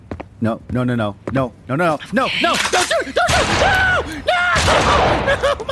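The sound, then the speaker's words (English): Pistol gunfire in a video game, bursts of shots mixed under loud, excited talking and shouting that runs through the whole clip. “No, don't shoot! Oh my god! Okay, the pistol didn't work.”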